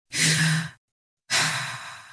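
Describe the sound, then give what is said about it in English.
A deep breath taken alone: a loud airy inhale of under a second, a brief silent pause, then a long, breathy sighing exhale that gradually softens. “Take a deep breath.”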